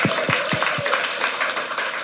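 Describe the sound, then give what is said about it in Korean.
Audience applause for a church worship team at a service: dense, steady clapping from a crowd, sustained at even loudness throughout, with no talk over it. “찬양 팀 큰 박수 드립니다.”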